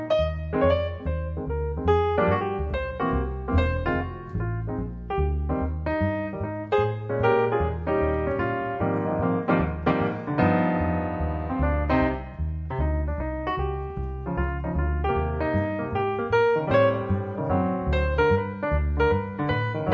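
Piano with bass playing a Christmas tune: a flowing instrumental of many chords and melody notes at an even, moderate level for the whole stretch, with no voices.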